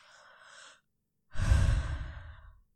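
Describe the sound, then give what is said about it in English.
A person's breath: a soft, airy intake first, then after a short pause a longer, stronger exhale with a breathy low rumble that gradually tails off. No voices accompany it. “Are you exhaling warm air?”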